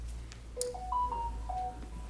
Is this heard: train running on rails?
no